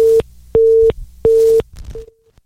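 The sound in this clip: Telephone busy tone after a caller hangs up: three loud, steady, evenly spaced beeps at the same pitch, then a fourth, shorter and much fainter beep before it cuts off.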